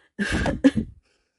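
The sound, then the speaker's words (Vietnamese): Two dry coughs in quick succession, short and fairly loud, with no talk around them. “Lạc Nghệ ho khan 2 tiếng.”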